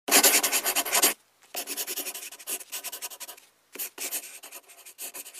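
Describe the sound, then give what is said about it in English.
Pen writing a name in a book, with bursts of scratchy, rasping strokes separated by short pauses. The strokes come in several runs and are clearly audible on their own. “You take the pen. Come on, take it. The sooner you get used to writing your new name, the better.”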